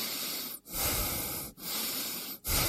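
Loud breathing in and out on instruction, heard as four long breaths of rushing air separated by three brief pauses.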